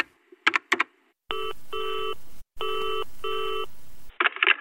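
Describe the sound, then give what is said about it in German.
An electronic telephone rings for an incoming call in two bursts, each made of two pulses of steady, bright tones, with brief clicks before the ringing and a short rustle after it. “Ein Anruf von unten.”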